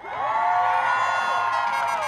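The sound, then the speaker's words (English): Crowd of students cheering and whooping at a noontime Gaza solidarity rally in Malcolm X Plaza at San Francisco State; a dense, steady roar of many voices, with no breaks. “The crowd of students jammed Malcolm X Plaza at the noontime rally.”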